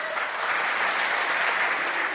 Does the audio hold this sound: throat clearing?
no